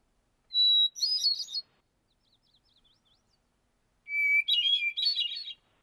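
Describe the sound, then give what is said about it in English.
Hermit thrush song in two phrases. Each opens with a clear, held whistled note, then breaks into a rapid, bubbly, high-pitched flourish. A faint warbling sits in the pause between the phrases. “All right, well, here comes the hermit thrush.”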